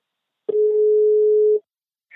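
A telephone ringback tone while placing a call to a guest: a single steady, mid-pitched tone lasting about a second, heard alone against silence.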